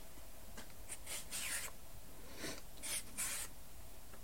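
Faint rasping scrapes of potatoes being peeled come in several short strokes at an uneven pace over a soft hiss.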